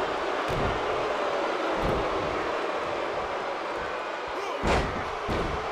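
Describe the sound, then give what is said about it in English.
A professional wrestler is slammed onto the ring canvas with a belly to belly suplex. A heavy thud lands near the end over a constant loud roar of background noise, with a few lighter impacts earlier on. “Belly to belly suplex. Brody Lee with a clothesline.”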